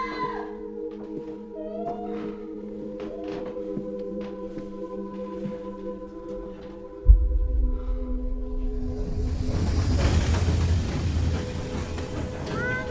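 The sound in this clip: Train noise as a passenger is about to step off onto a rainy platform. Quiet, scattered tonal sounds come first, then a sudden thump leads into a loud, steady low rumble overlaid with a rising broad hiss.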